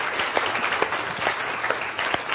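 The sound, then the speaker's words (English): Audience applause follows a volunteer's demonstration, dense steady clapping with a few sharper claps standing out, sustained throughout without speech. “Give a round of applause.”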